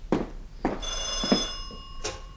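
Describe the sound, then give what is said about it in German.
Telephone bell ringing at home, with bright metallic rings layered over a few dull knocks and a steady low hum, lasting a couple of seconds. “Ach, dieses Telefon macht mich noch verrückt.”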